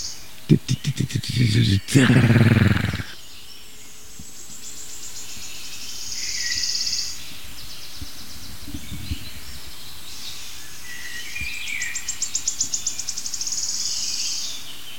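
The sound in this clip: A bird sings the same verse over and over: short, high, thin trilled phrases that repeat faintly with quiet gaps between them.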